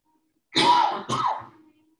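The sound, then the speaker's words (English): A person clears their throat during a spoken prayer: two rasping, husky bursts in quick succession, the second shorter and softer, alone in a quiet background. “Pardon me. Tickling my throat.”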